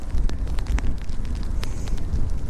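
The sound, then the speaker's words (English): Cold wind blowing outdoors, a continuous rough, low rumble with gusty buffeting against the microphone and scattered faint crackles, steady throughout. “And the wind is just a cold wind, as opposed to a blowing a hooli.”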